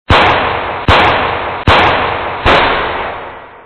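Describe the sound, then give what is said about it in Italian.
Four loud gunshot detonations ring out at an even, steady pace. Each sharp crack is followed by a long tail that slowly fades before the next shot. “Poi rimbombarono 4 detonazioni che mandarono a gambe levate 4 indiani e fecero cadere in ginocchio tutti gli altri.”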